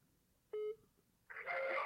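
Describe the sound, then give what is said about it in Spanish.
A telephone keypad gives one short, clear tone while someone dials a butcher shop. A louder, rougher sound follows and holds to the end. “Llama, pone carnicería a la que estamos llamando a Villa del Parque.”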